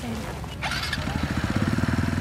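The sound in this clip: A motorcycle engine roars as the bike rides off fast with riders aboard, its exhaust settling into a rapid, pulsing throb that grows steadily louder.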